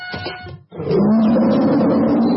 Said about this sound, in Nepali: गर्जन छ सधैँ बाघ झैं